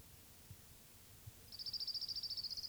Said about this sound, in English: Orange Crown Warbler number 2.